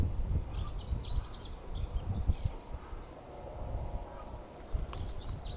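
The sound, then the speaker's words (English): Outdoors in strong Scottish wind, a bird sings two bursts of high, warbling song with a pause between them, over a loud, gusty low rumble of wind. “I want to listen to that beautiful bird singing there.”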